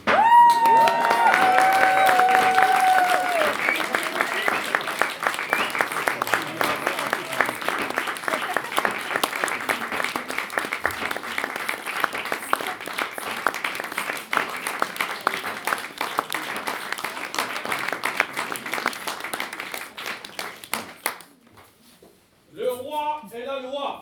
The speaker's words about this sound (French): Veuillez acclamer notre bon roi Arthur